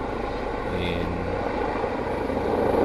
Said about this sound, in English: this is the second time that the police helicopter has flown over on a continual basis for about 15 minutes